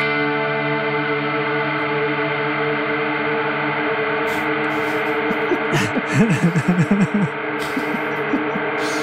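A modulated delay effect on a guitar effects unit smears a sustained droning guitar tone into a steady wash of repeats, with wavering, bending pitch swoops surging briefly midway before the echoing drone settles again.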